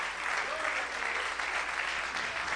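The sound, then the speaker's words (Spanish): A church audience applauding during a sermon, with sustained, evenly dense clapping at moderate loudness throughout. “Dale un aplauso grande a Cristo, que Él se lo merece.”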